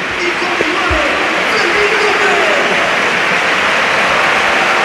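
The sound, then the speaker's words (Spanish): A football stadium crowd in Seville applauds a player leaving the pitch as he is substituted during a match against Barcelona: a broad, continuous wash of clapping that stays loud and even throughout. “Y también se marcha Fabián, escuchamos cómo le despide el Pizjuán.”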